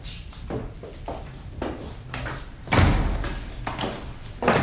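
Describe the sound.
A guard opens and shuts a prison cell door: a run of clanks and thuds, then one loud, heavy slam midway and another bang at the very end, over a steady rattling noise.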